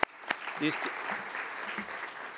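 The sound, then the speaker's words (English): Audience applause at a committee session on sustainable energy, a soft, even patter of clapping, with a voice briefly heard near the start. “Please, a warm applause for our”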